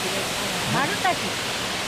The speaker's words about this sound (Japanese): ちょうど水のしぶきが花が開いたように下へ落ちてくるという大変綺麗な滝になってますね。